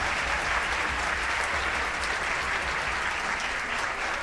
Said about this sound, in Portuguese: Quero pedir a todos os músicos aqui que dão aula, fazem side night para ficar de pé, para receber os nossos aplausos também. Todos os professores, bravo.